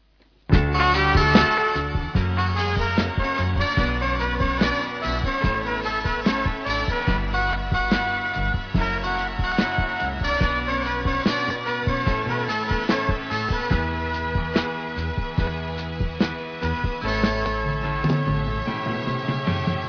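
A singer-songwriter's song plays continuously at a steady level, with a regular beat and layered, sustained musical tones throughout.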